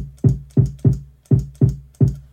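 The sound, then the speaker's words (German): A kick drum sample is triggered six times, each a punchy low thump with a quick attack and short decay, spaced in a loose, steady pattern with silence between hits. “So, okay, hier meine Kick.”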